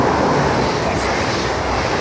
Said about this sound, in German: Während hinter ihnen ein ICE vorbeidüst.